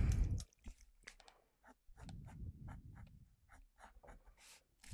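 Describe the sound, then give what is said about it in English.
Scratchy strokes of hand drawing while sketching elf ears: many short, irregular scraping bursts with brief pauses between, faint and heard alone. “I need to draw good elf ears. I can't really draw elf ears.”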